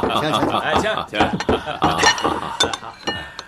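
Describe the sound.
Glasses clinking in a toast at a shared meal: a few sharp, bright clinks rise over lively conversation and some chuckling.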